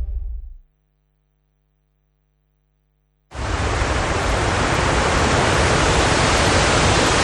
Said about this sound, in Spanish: El sonido del agua es para muchos viajeros el sonido de la vida